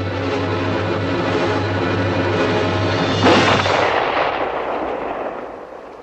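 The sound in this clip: A single gunshot cracks out in the evening air over steady rumbling background noise, and its loud report trails off slowly.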